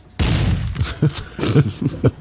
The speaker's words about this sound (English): I'm going to go back and do a shotgun.